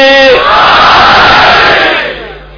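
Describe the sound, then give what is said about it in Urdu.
Crowd roaring the Nara-e-Haidari slogan for Ali, a loud massed shout that follows a single leading voice, swells and holds, then tapers off at the end. “مولا علی کی طاقت کے نام پر نعرہ حیدری”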